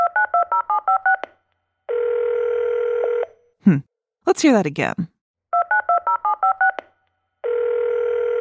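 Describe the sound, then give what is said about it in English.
Telephone dialing tones: a rapid run of keypad beeps, then a steady dial tone. A brief voice speaks, and the beeps and tone repeat in the same order. “A telephone! A telephone.”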